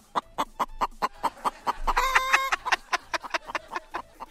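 Chickens cluck in a henhouse, played back from an audio message: many short, evenly spaced clucks in a steady rhythm, with one longer, higher, harmonic squawk in the middle.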